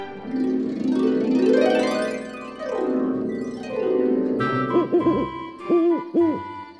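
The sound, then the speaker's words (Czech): An owl hoots at night outside a cabin window, giving a few quavering, wavering hoots in the second half after a stretch of sliding, droning tones. “Jenže v noci uslyšeli Mickey i Pluto za oknem chaty podivné zvuky. Takové zvuky, jaké ve městě bývají málokdy. Například houkání sovy nebo vytí kojotů.”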